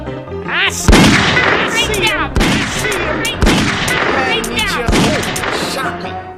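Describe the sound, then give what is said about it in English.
Gunshots in a video game crack out as four sharp, loud blasts spaced a second or so apart, set against a dense, busy bed of other game sounds. “He got me. He shot me.”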